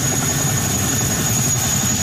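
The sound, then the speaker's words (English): A National Guard helicopter delivering troops and supplies to Hawaii ahead of a hurricane produces a steady, loud low rumble with a thin high whine above it, continuous and unbroken throughout with no voices. “A National Guard helicopter delivering troops and supplies to the region.”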